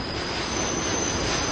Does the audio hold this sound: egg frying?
no